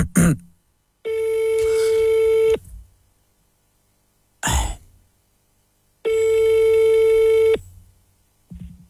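A telephone call being placed, with two long steady ringback tones separated by silence, each lasting about a second and a half, and short clicks and a faint throat sound between them.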